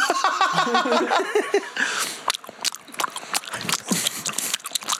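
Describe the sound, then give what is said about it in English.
Chewing and biting with many irregular, crunchy clicks and snaps, fairly loud, after a denser burst of mixed noise at the start. “It's chewing.”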